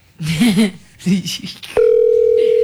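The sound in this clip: A telephone tone from an unanswered call: one steady, unbroken mid-pitched note starts abruptly after a stretch of speech and holds loud and even to the end.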